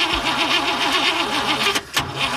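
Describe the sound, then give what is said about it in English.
A car engine cranking but failing to start after the key is turned, a steady rhythmic wavering whir from the starter that never catches into running. “We turn the key, and our car just doesn't want to start.”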